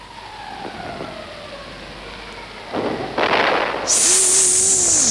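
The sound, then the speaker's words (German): A wartime shrapnel shell or grenade explodes: faint descending whistles give way to two heavy, rumbling bursts, followed by a loud, high, steady whine and a low wavering tone. “Das war eine Granate. Nein, das war ein Schrapnell.”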